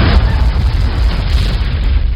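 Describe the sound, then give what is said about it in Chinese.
Large boulders crash and roll down a hillside onto a road in a deep, continuous booming rumble. The sound is loud and sustained, with no clearly separate impacts. “山头上砰砰砰一阵响，滚下好多大石头，挡住咗前后嘅路”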